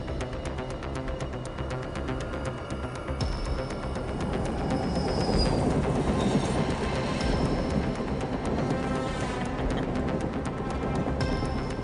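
Train wagons rattling along the rails, a continuous heavy rumble with fast rhythmic clacking and a few thin, high metallic whines, steady and loud throughout.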